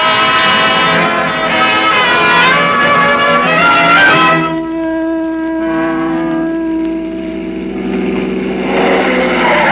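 A car speeding around curves on new low-pressure tires makes a loud, harmonic whining squeal that holds steady, breaks off partway, then resumes at a shifted pitch. No voices are heard.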